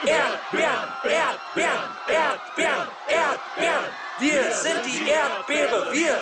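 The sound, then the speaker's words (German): A crowd of angry people shouting outside a strawberry field whose gates have been shut. Many voices bellow together in loud, regular chant-like bursts that rise and fall steadily. “Die haben bereits die Tore geschlossen, damit keiner mehr reinkommt. Die Leute hier sind außer sich. Hör doch mal.”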